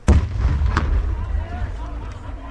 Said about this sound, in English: After the soldiers detonate the bomb, the ninth here so far this year, they reopen the checkpoint